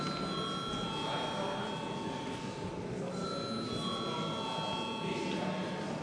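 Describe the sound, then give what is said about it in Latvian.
A chamber bell rings in a parliament before a vote, sounding as a sustained, buzzing ring in two long stretches separated by a brief dip, over a steady background wash. “Paldies, lūdzu zvanu.”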